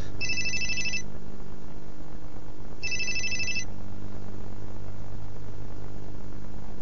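Telephone ringing on the caller's end during a call: two electronic trilling rings about three seconds apart, each lasting under a second, over a constant low hum and hiss.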